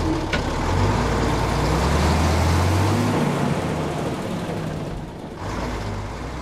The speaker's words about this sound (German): Thomas Portmann grinst, schwingt sich hinter Steuer und fährt los.